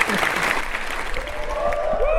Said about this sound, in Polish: Wielkie brawa. Wszystkie brawa dla Jezusa.